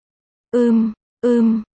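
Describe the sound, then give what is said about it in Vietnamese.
A woman moaning in pleasure: two matching voiced moans, each about half a second long at a steady mid pitch, separated by a short silence. “Diễm Nguyệt Kỳ không nhịn được rên lên.”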